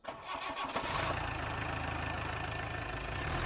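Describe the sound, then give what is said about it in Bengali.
A jeep and a lorry set off in the morning on a dusty red-earth road. Their engines start with a brief rough catch, then settle into a loud, steady, low rumble that continues without a break. “Zip আগে চলেছে, পেছনে lorry, কারণ lorry আগে গেলে যে পরিমাণ লাল ধুলো উঠবে”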